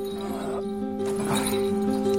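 Hooves of a walking donkey clop in a few soft, steady steps beneath a sustained tonal drone, moderately quiet throughout.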